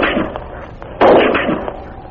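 A single rifle shot in a radio drama, a sudden sharp blast about one second in that lingers and slowly decays over a dull background hiss.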